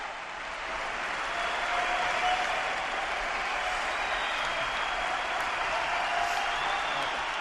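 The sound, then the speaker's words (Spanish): Standing ovation from an arena crowd at the Martín Carpena, a dense, continuous wash of clapping and crowd noise that stays loud and even throughout. “Sigue ovacionando en pie todo el Carpena y no dejan hablar a Rafa.”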